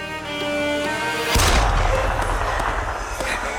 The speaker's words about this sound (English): No, that's shots.